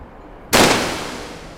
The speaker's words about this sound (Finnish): Tämä Nagant ampuu aina ylös, joten tähtään kohteen alaosaan.